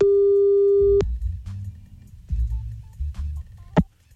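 A telephone ringback tone sounds as a call is placed: one steady tone lasting about a second cuts off into a faint low rumble, with a brief click near the end.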